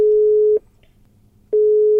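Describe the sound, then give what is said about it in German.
A telephone call tone inside a car stuck in a traffic jam: a steady mid-pitched beep cuts off, about a second of silence follows, then the same tone returns, with no voices. “Du, pass auf, lass uns doch den Daniel anrufen.”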